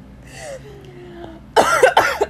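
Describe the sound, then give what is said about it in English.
A woman coughs and chokes in a quick cluster of harsh, loud bursts that follow a quieter opening. “Excuse me. Wow. She's already choking.”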